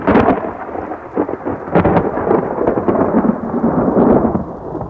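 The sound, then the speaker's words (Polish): Loud, continuous rolling thunder rumbles with a few sharper cracks, layered over the dense hiss of falling rain. “Zagrzmiało.”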